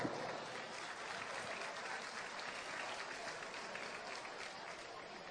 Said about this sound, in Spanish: Un aplauso para Gonzalo.